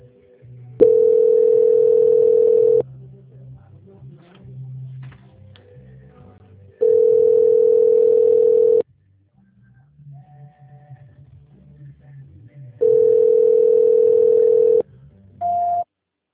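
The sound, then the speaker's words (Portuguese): Telephone tone while a call is put through to another department: three long, steady tones of about two seconds each, spaced roughly six seconds apart, then a brief higher-pitched tone at the end, with only faint background between them. “Só um minutinho que eu vou passar a ligação para a auditoria, tá? Transferência.”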